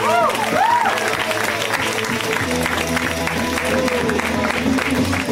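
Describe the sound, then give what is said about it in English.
Audience applause for a comedian taking the stage at a comedy show, steady clapping and crowd noise throughout with a voice speaking over it. “Let's hear from Mr. Michael Palasek, guys. Give it up for Michael.”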